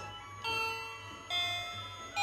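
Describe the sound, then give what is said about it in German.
A doorbell rings in three soft chimes, each starting sharply and then fading slowly as a sustained tone, heard faintly over a low, steady hum. “er hat's geklingelt”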